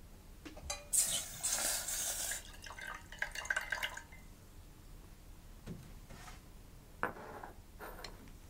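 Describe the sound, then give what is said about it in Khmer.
Coconut milk boils in a pot as it thickens, with a few seconds of dense, fizzing bubbling followed by sparse, quiet pops and drips. “ចាយើងឃើញថាទឹកខ្ទិះដូងរបស់យើងបានពុះហើយហើយក៏វាបានខាស់ខ្លះហើយ”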